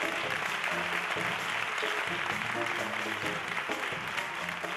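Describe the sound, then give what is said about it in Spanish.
Theatre audience applauding at a concert, a dense, steady wash of clapping that holds at an even level for the whole stretch, with a voice carrying over it. “se llama Ernesto, un aplauso para él.”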